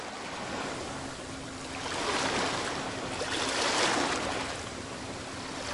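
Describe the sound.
Strong ocean waves of the Indian Ocean break below a hard, ancient red-brown rock ridge, a continuous broad roar that swells twice to louder surges before settling back.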